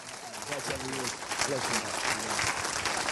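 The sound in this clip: A church audience applauds to welcome a preacher coming to speak, a steady wash of clapping with voices talking over it throughout.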